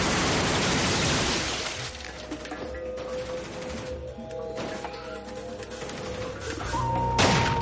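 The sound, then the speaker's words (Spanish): Gunfire in a shootout from a 1999 action thriller film: bursts of sharp, noisy cracks and thuds, heaviest at the start and again near the end, with a rough, busy background between them. “Fuera continúa el tiroteo.”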